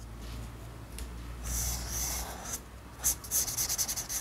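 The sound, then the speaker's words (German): A pencil scratches across paper while an outline sketch is drawn. Faint, soft rubbing strokes come first, then a quick run of short, crisp scratches toward the end. “Ich mache jetzt eine Zeichnung von das Skelett,”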